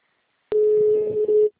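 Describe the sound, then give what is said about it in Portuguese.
Ringback tone on an outgoing telephone call: one steady, sustained mid-pitched beep of about a second, opening with a sharp click, heard alone over faint background noise. “Ah, tá chamando.”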